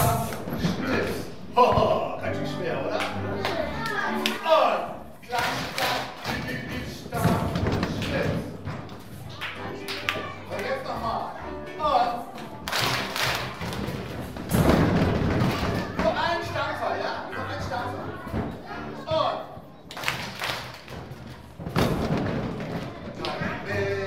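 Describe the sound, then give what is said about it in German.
Children clap and stamp a rhythm together at a children's songwriter festival in Frankfurt, with repeated dull thuds and sharp claps in a pulsing pattern over about twenty seconds while voices carry on alongside. “Stampfen, klatschen, mitsingen, das war das Kinderliedermacher-Festival in Frankfurt in diesem Jahr”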